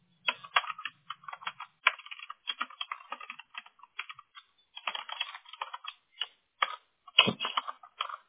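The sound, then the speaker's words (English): Rapid typing on a computer keyboard while messaging a supervisor: many crisp, irregular key clicks in uneven bursts, with short pauses between runs and a few heavier strokes near the end. “I guess it helps if I can type.”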